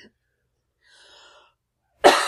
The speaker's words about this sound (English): I won't be able to edit out all the coughs